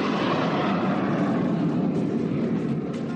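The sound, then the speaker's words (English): SpaceShipOne's rocket motor roars as the craft rises over the Mojave Desert in California: a loud, dense, steady rushing rumble that holds for the whole stretch and eases slightly at the end, with no voices. “That was the sound of victory today. Just before 7 a.m. this morning, the snub-nosed, star-spangled Spaceship One rose from the Mojave Desert in California”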